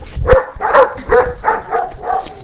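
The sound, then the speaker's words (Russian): A dog barks in a village, six evenly spaced woofs in a steady rhythm, each rough and mid-pitched, with no other sound between them. “В картинку входит лай собаки”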